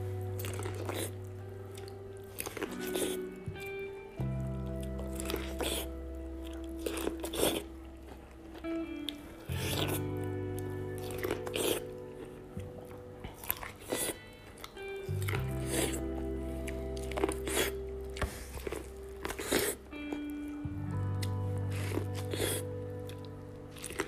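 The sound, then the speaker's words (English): Eating corn up close: many crunchy bites and moist, squishy chewing sounds come in irregular bursts, with short pauses between mouthfuls over a low background hum. “right now I'm gonna do an auditorial mukbang of me eating corn.”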